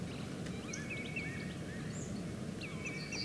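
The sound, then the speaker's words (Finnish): A common greenshank calls in the distance at early morning by Lake Hyvelänjärvi in Lohja: faint, clear whistled notes repeated in short series over a steady low rumble of background sound. “Siellä on valkoviklo kauempana.”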